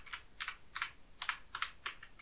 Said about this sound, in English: I'm going to type in hi, I guess just hi, and that didn't work.